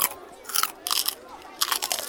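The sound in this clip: Someone biting and chewing food brought from home at lunch break, giving three bursts of loud, crisp crunching with short pauses between them and no talk.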